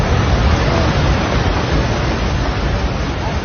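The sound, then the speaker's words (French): Roar of an entire mountainside collapsing in a landslide in Nepal after deadly floods: a dense, steady rumbling wash of noise, heavy in the low end, loud and continuous throughout with no distinct breaks. “ce que vous entendez là, c'est le bruit d'un flanc de montagne entier qui s'effondre.”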